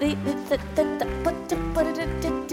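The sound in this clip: A voice imitating a chicken clucking: a rapid, steady series of short, nasal, harmonic clucks, fairly loud and heard alone.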